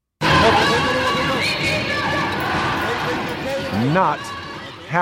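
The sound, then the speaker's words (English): Protest crowd outside the National Parliament in Reykjavik, Iceland, forms a loud, dense hubbub of many voices with shouts rising out of it and a few sharp thumps. A voice speaks briefly within the noise. “Here's the sound of Iceland outside the National Parliament in Reykjavik on Monday.”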